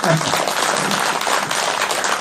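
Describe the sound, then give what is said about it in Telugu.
An audience claps in honour of the women present, a dense, continuous round of applause that holds steady throughout. “So ఈ ఆడవాళ్ళందరికీ ఒకసారి చప్పట్లు కొడదాం.”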